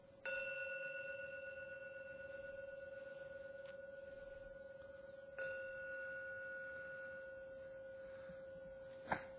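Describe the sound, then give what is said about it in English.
A gong is struck three times to close a meditation. Each strike rings out in a sustained, humming tone, and the third lands at the very end. “We are going to ring the gong 3 times to end the meditation.”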